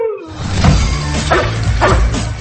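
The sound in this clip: Dogs barking: a few sharp barks over a dense, noisy background in a short burst.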